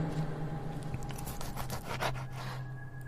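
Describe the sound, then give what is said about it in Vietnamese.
A knife is sharpened in many quick, rasping scrapes, one stroke after another in a steady back-and-forth rhythm, faint over a low hum. “cầm con dao bắt đầu mài xoèn xoẹt xoèn xoẹt”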